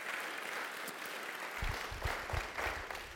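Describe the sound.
Faint, steady applause from an audience welcoming a speaker called up to the front: a continuous patter of clapping, with a few low thumps rising in the second half.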